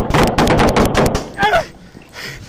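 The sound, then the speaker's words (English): Rapid gunfire in a police shooting, caught on a Nashville officer's body camera: many loud shots in quick succession, then a shouted voice as the firing stops. “23 shots fired! Somebody unloaded. Shots fired!”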